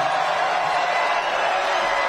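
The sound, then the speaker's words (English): Crowd cheering at a political rally in New Hampshire, a sustained, even roar of many voices with no clear breaks, steady in level from start to finish. “Crowd loving it. Feeling it. This is the mood of America.”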